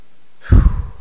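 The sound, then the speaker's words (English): A deep breath taken at the start of a worship gathering, heard as one loud, breathy sighing exhale that fades out quickly, with no talk over it. “Let's center ourselves, let's take a deep breath”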